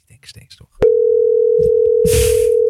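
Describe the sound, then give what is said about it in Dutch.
Telephone dial tone while placing a call: a steady single-pitched tone starts abruptly after brief talk and holds unbroken to the end, with a short burst of noise over it near the close. “we gaan gewoon bellen”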